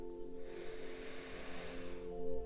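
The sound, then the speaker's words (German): A single deep breath drawn in during a relaxation exercise, a long airy hiss lasting about a second and a half over a soft, steady low tone. “Atme nun einmal tief ein”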